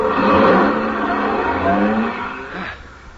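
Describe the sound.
A car drives at night, its engine humming steadily and rising in short revving surges before easing off near the end.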